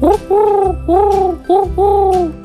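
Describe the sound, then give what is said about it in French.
A human voice imitating a wood pigeon's coo: five hoarse, low hooting beats in a short-long-long-short-long rhythm, loud and alone. “Ils vont tous les deux roucouler. Mais le pigeon ramier va faire 5 temps. Il va faire un”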